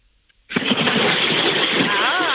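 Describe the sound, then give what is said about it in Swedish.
A splash as someone takes a bath in a pool of water at Färboden, Jämtland: after near-silence, a loud burst sets off continuous rushing, churning water noise that lasts for about two seconds. “Så ska det låta. Så där låter ett bad. Ja, nu har vi liksom tydliga ljudbevis på att det har ägt rum.”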